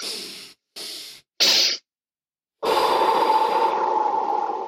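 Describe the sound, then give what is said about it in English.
A calming breathing exercise: three short, sharp sniffing inhales through the nose, then a pause and one long, steady, breathy exhale through the mouth. “so you do one long inhale and then a short inhale through, right, your nose, like both of those through your nose, and then an exhale through the mouth.”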